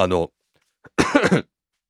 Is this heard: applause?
no